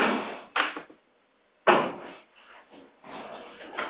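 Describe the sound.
A door being opened in a domestic scene: a few soft handling knocks give way to a louder clunk of the latch and mechanism, followed by quieter scraping and shuffling movement.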